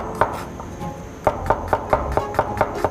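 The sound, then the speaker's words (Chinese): A knife finely chopping coriander and other ingredients for a noodle sauce, a few sharp knocks on a board followed by a steady run of rhythmic chops, fairly loud with no talking. “这些都要切碎。 对，都把它切碎。”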